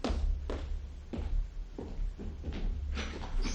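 An office door being closed and locked, heard as a series of about five or six soft thuds, taps and clicks spread unevenly over a low, steady rumble.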